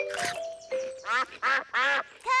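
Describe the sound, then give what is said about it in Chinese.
Ducks quack at a picnic with several loud, nasal quacks in quick succession, some short and some drawn out. The calls come in an uneven rhythm, each one clear with brief gaps between them. “鸭子们过来了。”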